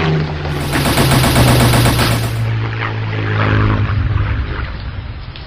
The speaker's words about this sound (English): It's definitely coming at us. It's preparing to make a strafing run.